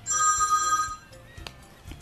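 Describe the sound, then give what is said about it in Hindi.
A telephone rings with a bright electronic trill lasting about one second, then quieter low rumbling and a few soft knocks follow. “पंटी का phone है मेरे ख्याल से”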